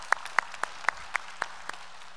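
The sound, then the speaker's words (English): Hand claps from a church audience in North Garnett: seven crisp, faint strikes at an even, steady pace, heard alone in a quiet space. “If you would here in North Garnett, put your hands together.”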